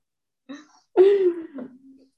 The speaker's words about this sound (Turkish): Hıçkırık. Hıçkırık tuttu.